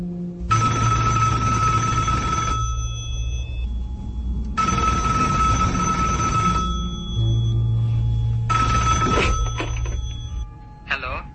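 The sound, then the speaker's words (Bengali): A telephone rings in three long bursts of bright, steady bell-like ringing, separated by short gaps, over a low continuous background. “Phone বেজে উঠল, ও ধরল।”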